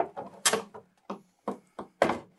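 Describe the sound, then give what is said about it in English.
Flat-pack IKEA furniture parts are pushed down and click into place with a quiet series of sharp clicks and knocking thumps. The rhythm is uneven and some hits land harder than others. “Yep. Clicky click. Just push it, push it down. So this is a true IKEA build where we do not reference the instructions whatsoever.”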